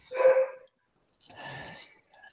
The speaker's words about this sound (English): And there's a dog somewhere. Apparently.